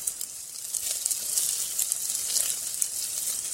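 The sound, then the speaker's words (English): Meat browning in a frying pan gives a steady, hissing sizzle with fine crackles, even in level and fairly faint throughout, with no talk. “When the meat is browned, add the rest of the sauce ingredients.”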